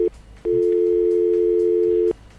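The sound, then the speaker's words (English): A telephone line tone sounds after the caller hangs up: a short beep, a brief gap, then one steady, loud, mid-pitched tone of about one and a half seconds that cuts off abruptly. “We got another caller. Yes, we got another call. Oh, they hung up.”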